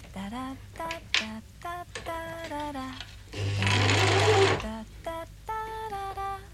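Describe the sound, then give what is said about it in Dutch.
A home sewing machine, used in a living room turned workshop to sew face masks, rattles in one brief burst of about a second, with a voice talking before and after. “Het ratel van onze machine is nu onze radio”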